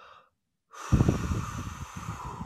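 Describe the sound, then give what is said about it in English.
A long, deep breath drawn in, loud and airy, following a brief silence and a faint earlier sound, with no talking over it. “Now, I want you to take three deep breaths in the name of Jesus. Receive the wind and the power of the Holy Ghost. Breathe.”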